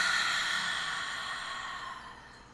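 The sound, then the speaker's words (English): A deep, slow breath during a guided breathing exercise: one soft, breathy exhale that fades steadily. “let's take a nice deep breath in through your nose and out your mouth.”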